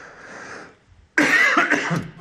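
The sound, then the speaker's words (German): A single short, harsh cough bursts out loudly after a moment of quieter low noise, then trails off in breathy rasps. “Dann kann ich mal eben kurz husten.”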